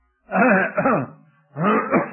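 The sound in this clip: Throat clearing from a speaker with a troubled throat: two short, rough, voiced bursts, the first longer and the second following after a brief pause, fairly loud and with no talk over them.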